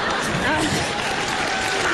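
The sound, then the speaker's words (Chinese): Steady applause from an audience at a Chinese crosstalk comedy performance, a continuous wash of clapping with performers talking over it. “您还鼓掌呢？您就别鼓掌了。”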